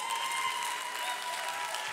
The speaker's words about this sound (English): Y'all can clap for my grace.